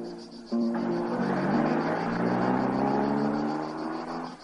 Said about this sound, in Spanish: El cliente y la mujer se suben al descapotable y se marchan. Teresa les observa triste desde la puerta. El vehículo se aleja por la carretera